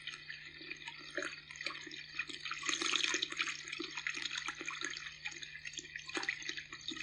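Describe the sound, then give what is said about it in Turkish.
Water gushing from a leak makes a steady, faint hissing rush that swells slightly and then settles. The spray-like noise runs continuously without pauses or voices. “Bu ne acaba? Su fışkırıyor, görmüyor musun? Kes şu meleti be. Her tarafı su basacak, göl gibi olacak yoksa.”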